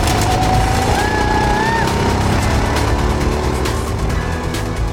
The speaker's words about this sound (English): The first test run of the Square One Club go-kart.